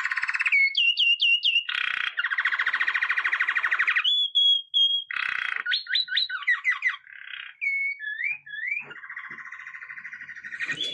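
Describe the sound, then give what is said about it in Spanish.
Saffron finch singing in the Argentine countryside: a loud, varied run of sharp chirps, buzzy trills and rising and falling whistled phrases, repeated in many quick bursts with no other sounds. “El jilguero dorado que estamos escuchando es una de las aves más conocidas de la Argentina”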